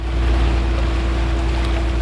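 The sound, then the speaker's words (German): A small motorboat leaves a boathouse and crosses clear lake water on the Königssee. Its engine gives a steady, unbroken hum with broad rushing water noise and no voices. “ein kleines Schiff aus dem Bootshaus, steuert es über glasklares Wasser”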